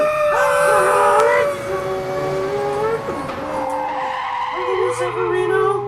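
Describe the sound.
Car tyres screeching as a car drives away, a long high skidding squeal with a wavering pitch over engine noise, with voices also present.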